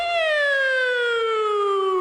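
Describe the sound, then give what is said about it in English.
A voice imitates a soothing old-style police siren with one sustained tonal wail that glides slowly downward in pitch. “Cop sneaks up behind you. They have that nice soothing siren. It's like,”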